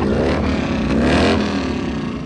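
A motorcycle engine revs with a loud, throaty roar. The rumble is dense and steady, swelling slightly mid-way before easing back, with no talk over it.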